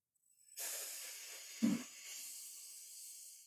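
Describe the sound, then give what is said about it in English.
Alternate nostril breathing during a breathing exercise: one long, faint, airy hiss of breath through the nose, drawn out over a few seconds with a brief stronger puff partway through. “Lock one nostril and inhale. Switch and exhale.”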